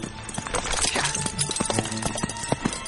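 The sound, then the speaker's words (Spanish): Horse hooves clip-clop as a rider travels on horseback among trees, a rapid, steady run of many hoofbeats at even loudness. “Mira hacia atrás alertado y continúa su camino cabalgando entre los árboles.”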